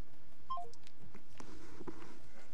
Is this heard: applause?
no